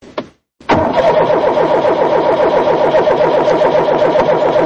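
A car engine, one prone to sputtering and dying as if starved of fuel, cranks with a couple of short bursts and catches. It then settles into a steady low idle with an even, rapid pulsing throb.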